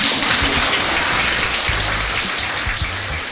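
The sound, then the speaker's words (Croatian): Applause from an audience at a children's art award ceremony: dense, steady clapping that fills the whole stretch and eases slightly toward the end. “Svi smo zaslužili pohvale. Jedan veliki pljesak.”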